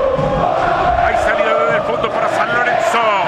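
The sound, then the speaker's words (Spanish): San Lorenzo fans cheer and chant in a football stadium during a scoreless match against Boca, a continuous crowd roar under a commentator's steady talk. “Alienta el público de San Lorenzo.”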